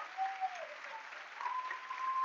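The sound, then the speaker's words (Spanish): Congregation applauding at a church revival service for the Lord: a steady, muffled patter of clapping that holds even throughout, with faint tonal traces beneath. “ese aplauso al Señor”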